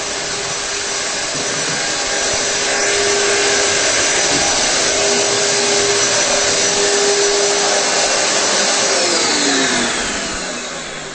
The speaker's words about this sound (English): that's a 40-foot central vacuum hose, by the way. That's what that is. Okay, so I'm going to go back in the kitchen and shut that off